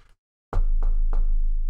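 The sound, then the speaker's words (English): Three knocks on wood, evenly spaced, each a hollow thud. A steady low hum runs under them. “knocking on wood doesn't really work on a podcast very well.”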